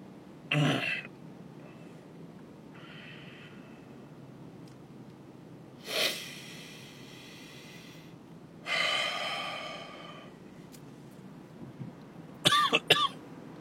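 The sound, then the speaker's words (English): Coughing and gasping after choking on a drink: a few sharp gasping breaths and coughs spread out between quiet pauses, including one longer rasping breath, ending in a quick burst of coughs. “But I can't almost choke on a drink. Don't breathe and drink at the same time. It doesn't work.”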